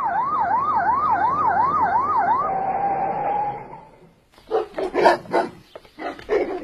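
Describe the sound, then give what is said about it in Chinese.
A police vehicle siren warbles in fast cycles, then holds a steady tone and fades out as criminal police arrive with a police dog. After a short pause, the dog barks several times in loud, uneven bursts. “昆山分局的刑警就带着警犬来”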